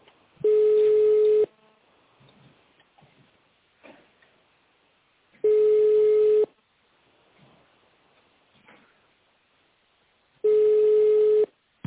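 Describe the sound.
Telephone ringback tone while a call is transferred: three steady tone bursts of about one second each, spaced at even intervals of roughly five seconds, with near silence and faint rustles between them.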